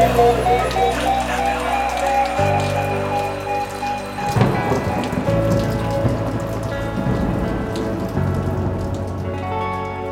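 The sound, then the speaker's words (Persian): Gentle rain drizzle patters steadily beneath music with sustained tones, the soft hiss of drops running through the whole clip. “صدا بارون و نم نم آرومش”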